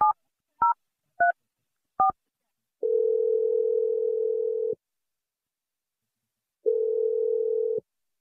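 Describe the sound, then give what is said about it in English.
A phone call placed to a listener on a radio show: four short keypad beeps of differing pitch, then two long, steady ringing tones of about two seconds each, separated by silence. “Let's dial her number. Here we go.”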